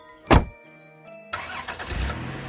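A converted camper van's engine starting early in the morning in a small village in northern Canada: a sharp thump, then a held ringing tone, then the engine catches with a loud roar and settles into a rough rumble.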